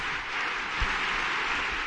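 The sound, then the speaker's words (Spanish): Applause from the stands for a young athlete, an even, moderately loud rush of clapping that carries on without voices. “Se merece un aplauso, me parece. Sí, ¿no? Un aplauso para Carla.”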